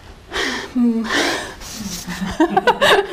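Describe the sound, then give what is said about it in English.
A deep breath is drawn in and let out in two airy swells, followed by short bursts of chuckling and voices talking. “Deep breath.”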